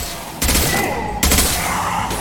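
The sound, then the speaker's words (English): Video game gunfire from disruptor ammo that rips through shields: dense, sustained bursts of loud shots that kick in sharply, with a second burst starting partway through and continuing to the end. “Let's activate our disruptor ammo. So that's cool.”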